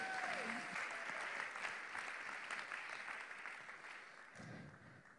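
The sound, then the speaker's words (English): A church audience gives a big hand clap for online viewers during a morning service, a sustained, even roar of applause that slowly thins and softens toward the end. “I want to bless all the people that are online. Let's give all of them a big hand clap, too.”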